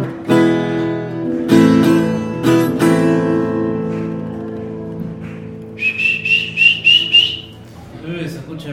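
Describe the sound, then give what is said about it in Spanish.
Whistles blown by a crowd in a patio: a quick run of several short, high, piercing blasts that follow a stretch of loud, harmonic music. “Se escucha desde el patio ahí los chifletes.”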